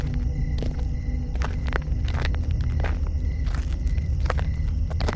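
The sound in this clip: Quick footsteps push through vegetation at night, a steady run of crisp, crunching steps over a constant low rumble.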